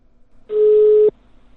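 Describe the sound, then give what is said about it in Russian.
Telephone line tone after dialing a subscriber who is unavailable, a single steady mid-pitched beep lasting about half a second, alone between quiet stretches. “Давайте еще раз наберем. Абонент недоступен. Еще. Сейчас еще раз наберем.”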